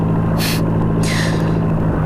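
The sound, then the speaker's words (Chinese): Speedboat motor running, a steady low droning hum with two short hissing bursts rising over it. “你快艇的马达声太大了，把我吵醒了。”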